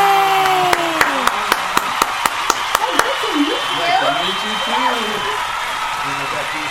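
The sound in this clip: Applause welcoming a surprise guest on stage: about a dozen crisp, evenly spaced claps in a quick steady rhythm, with excited voices over the top.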